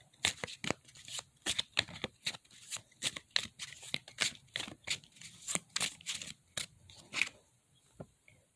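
Tarot cards being shuffled: many quick, crisp riffling bursts in a steady rhythm with short pauses between them, fairly loud and with no talking.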